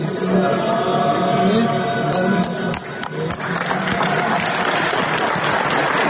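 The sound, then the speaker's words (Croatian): Applause fills a church as Zdravko Krivokapić embraces Metropolitan Amfilohije. Dense, continuous clapping runs under murmuring voices and grows brighter and fuller in the second half. “Pokloni se, pa ispravi, pa zagrli mitropolita Amfilohija, pa aplauz koji čujete i pesma.”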